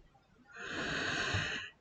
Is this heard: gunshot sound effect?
no